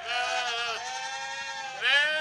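Sheep at a convent bleat in long, wavering calls, one running into another, loud and rich in harmonics, with a brief break in between and a stronger, higher-pitched bleat at the end.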